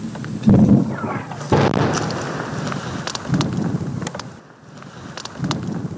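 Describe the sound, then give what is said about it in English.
Russian mortar fire on a front line near Barvinkove in eastern Ukraine: a few heavy, dull booms burst out over a constant rush of wind noise. “Not far from the town of Barvinkove, Russian mortars warn of what's to come.”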